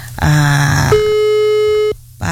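A telephone busy tone sounds while a call to the head of a climatology station in East Nusa Tenggara is redialed. Loud, steady electronic tones hold a fixed pitch for about a second before cutting off.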